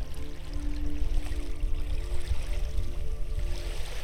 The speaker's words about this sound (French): Vous vous penchez pour tremper la main dans l'eau. La source de la montagne est glacée.